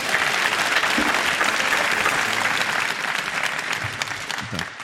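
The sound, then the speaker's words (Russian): Audience in a hall applauding a guest on a live talk show, thick sustained clapping that thins slightly toward the end as a faint voice comes in. “Давайте еще раз похлопаем ее.”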